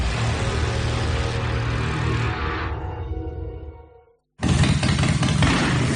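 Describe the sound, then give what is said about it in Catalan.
A Harley-Davidson motorcycle engine running with a loud, steady, rough rumble. The rumble thins and dies away to a brief silence, then a loud burst of sound starts abruptly. “Uf, com sona, eh? Quina música. És una Harley.”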